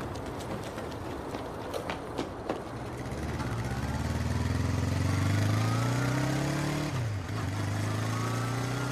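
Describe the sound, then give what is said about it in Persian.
Motorcycle engines of riders chasing someone on foot drone steadily and loudly from about three seconds in, with engine pitch climbing, then dipping briefly near the seventh second. Light clattering taps come before the engines. “مرتضا یه دفعه پا به فرار میذاره و اون دو نفر با موتور دنبالش میرن.”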